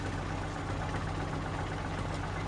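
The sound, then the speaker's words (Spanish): Engine of a luxury black car rolling slowly along a street, a low, steady idling rumble with a constant hum and faint vibration, heard alone. “Un lujoso coche negro circula despacio junto a ella.”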